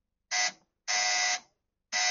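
A quiz show contestant buzzer is tested for a word-guessing round, giving three loud, harsh electronic buzzes separated by silence; the second is the longest and the last is cut off.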